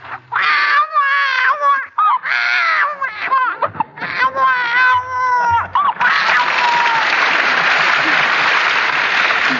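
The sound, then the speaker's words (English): A 2 or 3 month old baby cries in repeated loud, wavering wails, followed for the last few seconds by a steady hissing wash of noise like applause. “Now, a 2 or 3 months old baby sounds less strangled because it's able to get more wind into its lungs. Its cries are a little louder, like this.”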